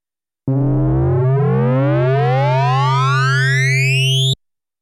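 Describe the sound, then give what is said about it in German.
Amplitude modulation on a synthesizer with sine-wave oscillators produces a loud, continuous tone over a steady low drone, with sidebands gliding upward in pitch for about four seconds before an abrupt stop. “Als nächstes hören wir die Amplitudenmodulation.”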